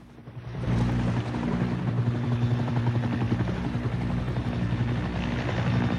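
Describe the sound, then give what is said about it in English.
A helicopter searches over water at night, its rotor rising quickly to a loud, steady chopping thrum that holds throughout. “A searchlight from the helicopter flashes across the water.”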